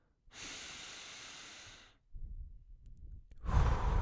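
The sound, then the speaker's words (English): A deep breath drawn in through the nose makes a long, steady, airy hiss lasting well over a second, followed by softer breathy rustling and a louder, rougher breath at the end. “So, we'll do a couple of breaths. First one, just through the nose.”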